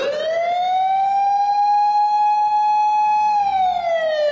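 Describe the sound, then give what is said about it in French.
Emergency siren sounding in the distance near a Tokyo subway station during the 1995 sarin gas attack: a loud, steady high wail with rich overtones, rising slightly at the start and dipping at the end, heard alone. “Les sirènes retentissent au loin, mais aucune ne se dirige vers eux.”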